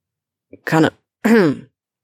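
A person coughs twice in short, voiced, throaty bursts that lean toward throat clearing. A tiny click comes just before the first, and nothing else is heard.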